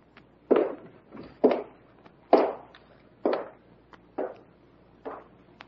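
Footsteps cross a floor toward a desk: six evenly spaced, fairly soft steps with short gaps between them and no voices.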